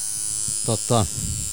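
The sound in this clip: Tattoo machine buzzing while tattooing, a steady, high electric drone that runs through the whole moment, with brief voice sounds rising over it.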